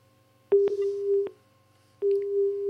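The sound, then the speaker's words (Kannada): Telephone line tone after a call is cut off: a steady mid-pitched tone sounds in two stretches separated by a gap, marked by a few clicks, over a faint low buzzing hum. “ಓ ಯಾಕೋ ಕರೆ cut ಆಯಿತು.”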